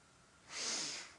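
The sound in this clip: One deep breath drawn in during a guided prayer, a soft airy rush that swells smoothly and then fades, faint and heard alone.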